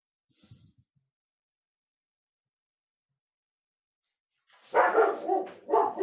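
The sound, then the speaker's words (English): A dog barks a few times in a quick, loud cluster near the end, after a long stretch of near silence that opens with only a faint brief sound. “that's my dog barking here.”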